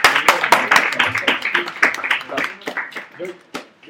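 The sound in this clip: Audience applause during a comic giveaway at a talk event: many quick claps ring out together, loud at first and thinning toward the end, with voices mixed in.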